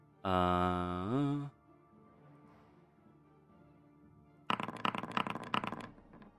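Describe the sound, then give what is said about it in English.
Many dice rattle during a tabletop roleplaying game session: after a quiet stretch, a sudden burst of dense, rapid clicking clatter runs on for a couple of seconds. “So many dice being rolled.”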